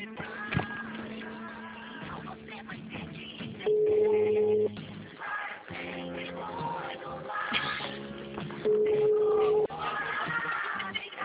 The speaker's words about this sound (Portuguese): Olha o toque do meu cliente.